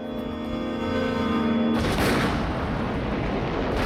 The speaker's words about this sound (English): A shed right in front of the control tower explodes in a massive ball of fire and black smoke.